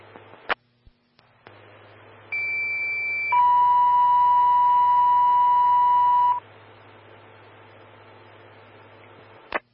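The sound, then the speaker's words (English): Fire station dispatch alert tones for an engine call: a click, then a steady higher electronic tone for about a second followed by a longer, lower steady tone for about three seconds, over faint radio hiss, with clicks at the end. “Fire Station 2, Engine 132, standby for sounds and a high occupancy alarm.”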